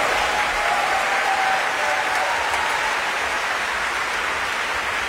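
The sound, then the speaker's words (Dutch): Audience applause at a stage performance with clowns, a dancer and a Vivaldi concerto: dense, even clapping from many hands that sustains at a steady level throughout, with no voices above it. “En applaus zeker natuurlijk voor Michael Held”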